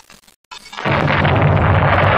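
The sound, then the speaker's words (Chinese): Artillery shells exploding as the enemy fires at random: after a near-silent moment, a sudden loud blast swells into a sustained, heavy roar and rumble. “是敌人乱打炮。坏了，绳子给打断了一股。”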